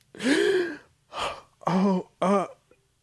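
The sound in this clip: A voice imitates a deep gasping breath with four breathy, voiced gasps. The first is the longest, and the last two are short and sharp, separated by brief pauses.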